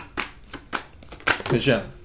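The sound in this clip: A tarot deck is shuffled until cards fly out: quick papery riffles come in a few short bursts, then a louder, busier flurry of flicking card sounds near the end.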